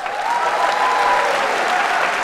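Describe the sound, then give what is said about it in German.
Applause breaks out from a crowd of employees at a stock exchange during short speeches ahead of a company's share listing: a steady, dense wash of clapping that holds at an even level throughout. “Applaus bei quasi jeder Pause während der kurzen Reden zum anstehenden Börsengang.”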